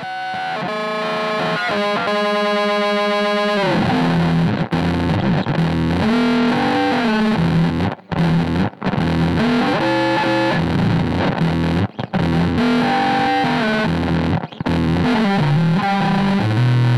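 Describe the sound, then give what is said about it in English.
Heavily distorted guitar run through an effects pedal on its octave-down setting with the control knob turned fully clockwise, giving a nasty, gritty low doubled tone. Loud, sustained phrases are broken by brief gaps. “Octave down, the control knob turned fully clockwise yields a nasty octave down sound.”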